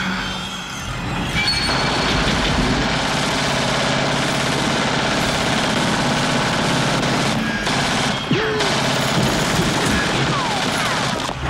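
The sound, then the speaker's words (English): Uzi submachine gun fire from a film scene: dense, rapid automatic bursts crackle loudly almost without pause through the whole stretch, layered over a thick, continuous soundtrack. “gets hit in the chest full force by the blast of an Uzi.”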